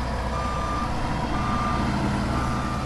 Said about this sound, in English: In the mountain town of Keene, a half-hour drive away, a bulldozer is scouring silt from the main highway.